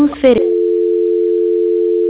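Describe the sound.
A steady, unbroken telephone dial tone hums alone after a brief voice at the start, heard while dialing an asterisk code to transfer a call.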